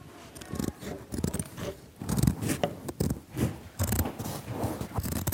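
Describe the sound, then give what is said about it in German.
Scissors cut the sleeves off a shirt that is being made into a bag, giving many rapid, crunchy snips in irregular bursts through the fabric. The cutting is fairly loud, with no talk. “Ich fange mal an und schneide den rechten Ärmel. Und ich schneide den linken.”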